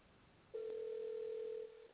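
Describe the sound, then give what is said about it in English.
A faint ringback tone from a phone call that goes unanswered: a single steady, level low-pitched tone of about one and a half seconds, over soft background hiss. “Okay, I guess she ain't going to answer the phone.”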